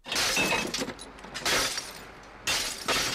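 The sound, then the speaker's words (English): Glass bottles are smashed for sale to a factory, heard as a few bursts of crashing, shattering glass with brief tinkling debris between them. “This is not the sound of destruction, but of industry. The bottles are sold at £11 a ton to a factory in Ringsend.”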